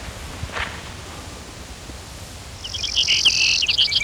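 Brewer's sparrow song: a high, rapid, buzzy trill that starts partway through and runs to the end, loud over a steady background hiss, with a faint brief note earlier on.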